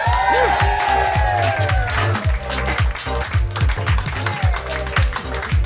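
A live comedy show audience cheers and applauds to welcome a segment, with loud, dense clapping and whoops running steadily and energetically throughout.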